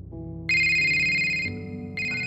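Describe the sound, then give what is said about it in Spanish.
A mobile phone ringtone plays a short electronic melody of sustained, bright synthetic tones stepping between a few held pitches, loud and alone without any voices. “El teléfono de Kyle comenzó a sonar.”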